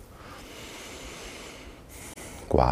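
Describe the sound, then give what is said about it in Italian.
A sharp, forceful exhale while squeezing an exercise ball to work the chest and arms. It bursts out loudly at the very end, after a steady wash of background hiss. “Inspiro, quando espiro schiaccio un po' il pallone. Inspiro, espiro. Con questo lavoro andrò a stimolare i pettorali, le braccia. Espiro.”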